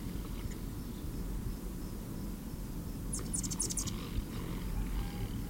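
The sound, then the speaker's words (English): An Anna's hummingbird at a feeder in Santa Barbara, California, gives a quick cluster of thin, very high squeaky chirps midway through. The chirps are faint against a steady low background hiss. “Anna's hummingbird is wobbling at a feeder.”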